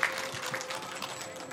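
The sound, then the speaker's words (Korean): Quiet audience applause for the Wonju Arirang preservation society, a brief, steady patter of clapping hands with a slightly stronger onset. “이렇게 생생하게 전해주신 원주 어리랑, 원주 어리랑 보존회 여러분들께 다시 한번 큰 박수 부탁드리겠습니다.”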